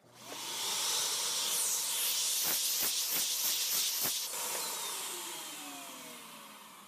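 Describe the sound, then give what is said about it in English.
Mold being vacuumed off an archival document: a loud, steady, airy suction hiss that swells quickly and slowly tapers off, with a few brief sharp clicks partway through. No voices. “here's mold being vacuumed off an archival document.”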